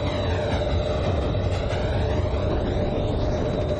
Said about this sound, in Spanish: Un tren pasa por varias estaciones.